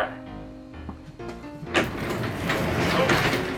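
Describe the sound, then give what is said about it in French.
A door is pushed shut with a single muffled thump, followed by steady rustling and shuffling noise that carries on to the end. “on ferme la porte”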